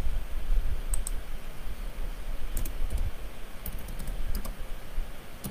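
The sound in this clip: Typing on a computer keyboard: light, irregular clicks in short clusters, fairly faint over a steady background hiss.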